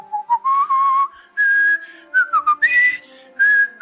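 A person whistles a wavering, poorly pitched tune in short bursts of a few notes each, the pitch sliding up and down, loud and clear with no talking.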